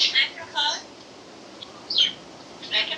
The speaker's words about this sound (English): And that's where this audio from the parrot is coming from.